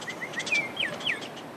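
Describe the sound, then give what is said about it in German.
Birds chirp beside a remote mountain road in New Mexico, giving a few short, high, faint tweets with quiet pauses between them. “Sie liegt einsam und verlassen da in den Bergen New Mexicos. Vögel zwitschern, Grillen zirpen.”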